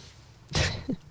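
A single short, sharp sneeze bursts out and is over in a moment. It is moderately loud and heard alone, with no talk around it.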